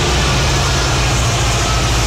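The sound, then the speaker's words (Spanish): A freight train of about 30 wagons, pulled by two locomotives, passes in a loud, continuous rumble with deep low-end roar, holding steady throughout without distinct clanks or breaks. “Uno, dos, tres, cuatro, cinco, seis, siete y así hasta 30 vagones impulsados por dos locomotoras que pasan sin parar”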